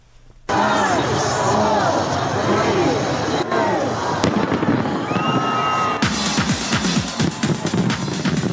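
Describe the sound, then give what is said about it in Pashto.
Fireworks over Sydney, Australia, welcoming the 2020 New Year: a loud, continuous barrage of crackling bursts and pops that starts abruptly and becomes denser and sharper toward the end. “د استرالیا سیډنی ښار چې په یوه ورځ په کورونا وایرس د خورا ډیرو کسانو د اخته کېدو پیښه ثبت کړې وي د 2020 کال د هرکلي لپاره پکې خلکو اورلوبي وکړې.”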